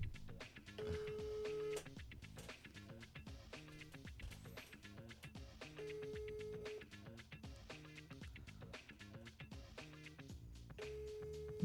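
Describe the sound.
An unanswered phone call with the handset held up to a microphone: three evenly spaced ringback tones sound over a busy, rhythmic background, and nobody picks up.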